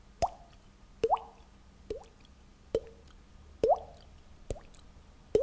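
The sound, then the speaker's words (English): A voice imitates water dripping into a barrel: seven evenly spaced wet plops, each a short pitched blip with a quick upward bend, standing alone over a quiet background. “the one he gave me was water dripping in a barrel, and that sounds like this.”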